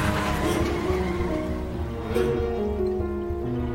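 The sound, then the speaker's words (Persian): A car engine drones steadily as the car is driven up an alley, a loud continuous rumble with a steady whine layered on top and no voices. “اردی از ته کوچه ماشین رو میاره”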